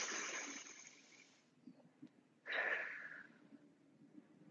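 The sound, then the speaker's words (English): A deep breath is drawn in and let out during a guided belly-breathing exercise: two long, soft, airy hisses separated by a short quiet pause, the second starting abruptly and fading away. “Let's take a deep breath one more time.”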